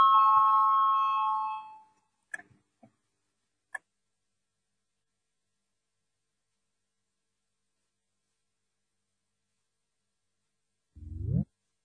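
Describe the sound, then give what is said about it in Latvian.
An electric bell rings before a vote in the Latvian parliament: a steady buzzing tone for about two seconds that then stops, followed by a few faint clicks and a long quiet stretch. “Lūdzu zvanu, balsosim par piekto tieslietu ministra Bordāna priekšlikumu.”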